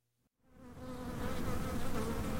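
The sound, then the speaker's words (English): Honeybees buzz as they gather nectar and pollen from almond flowers in an orchard at Fresno State. The dense, steady hum of many bees rises quickly from near silence and holds strong and even. “That's the sound of honeybees gathering nectar and pollen from almond flowers to feed their colony's young.”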